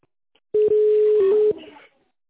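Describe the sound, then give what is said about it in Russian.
A single touch-tone key beep sounds on a phone line during a call to a company's automated menu. It is one steady tone lasting about a second with some line noise, fairly loud, then fading hiss. “Если вы знаете внутренний номер сотрудника, наберите его в тоновом режиме или оставайтесь на линии.”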